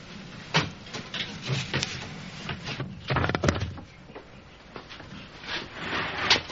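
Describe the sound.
A heavy wooden crate is shoved and dragged, producing a few rough scraping bursts and dull knocks in irregular spurts, with quieter rubbing between the louder pushes.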